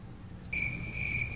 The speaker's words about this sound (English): A lot of crickets.